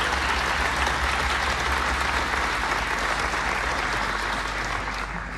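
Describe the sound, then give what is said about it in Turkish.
Audience applause for female folk singers about to perform a Turkish türkü. Dense, even clapping continues without a break for the whole stretch, with no voices heard above it. “Ve onları gönülden alkışlıyoruz.”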